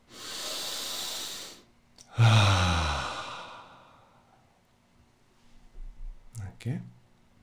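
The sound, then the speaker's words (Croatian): Deep breaths with strong exhales during a guided breathing and relaxation exercise. Two long, forceful, airy exhales are followed by a few softer, fainter breath sounds. “I napravite tri duboka udaha sa snažnim izdahom. Znači prvi. I još jedan.”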